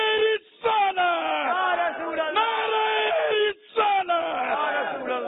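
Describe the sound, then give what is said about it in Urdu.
A crowd shouts a religious slogan in unison, loud, sustained massed voices with a rough, bellowing edge. The calls break off in two short pauses, one early and one late, then resume. “جوش بہت ہے ان میں اور نعرہ بھی لگایا انہوں نے.”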